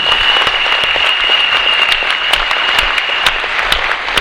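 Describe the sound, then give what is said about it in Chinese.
Audience applause at a sales lecture: dense, sustained clapping from a crowd fills the whole stretch at a steady, loud level, with a thin high whistling tone running faintly beneath it. “掌声！哦，亲爱兄弟姐妹，好，掌声要拍就拍，大声一点。”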